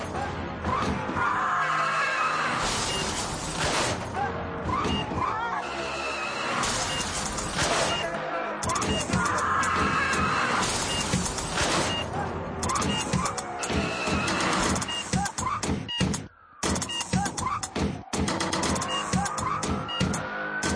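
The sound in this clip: A music track built from recorded car-accident sounds, with screeching tyres and crash impacts cut into a dense, loud, rhythmic mix that drops out briefly near the end.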